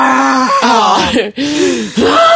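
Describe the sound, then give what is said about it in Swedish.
A man vocally imitates another man screaming like an animal while emptying an olive oil bottle, producing several loud, drawn-out groaning cries separated by brief pauses. “Och alltså skrek som ett djur samtidigt som han tömde olivoljeflaskan. Typ såhär, ja.”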